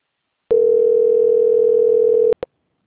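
A telephone line tone plays while a bank call is being transferred: a single steady, mid-pitched hum lasting about two seconds. It cuts off with two quick clicks.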